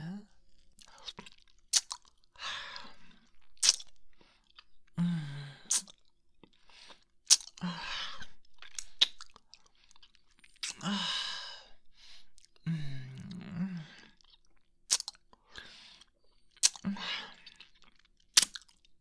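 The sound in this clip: Gum is chewed in soft, wet smacks and clicks at an irregular rhythm, with quiet breaths and sighs between the bites.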